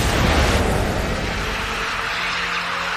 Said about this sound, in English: The biggest artillery weapon in the world, the Paris gun.